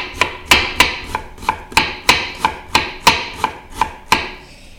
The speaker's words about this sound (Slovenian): Zato bom najprej narezal čebulo, seveda čisto nadrobno.